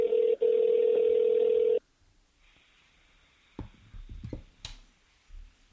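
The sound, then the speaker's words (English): A telephone ringback tone plays while a caller waits for the other person to answer. The steady electronic tone has one brief break, then cuts off abruptly and gives way to near-quiet and a few soft clicks and rustles. “Let's see if we can get him. Please enjoy this caller tune while waiting for the person you are calling to answer.”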